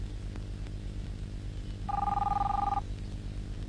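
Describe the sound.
A telephone rings once, a short electronic warbling two-tone burst heard over a steady low background hum.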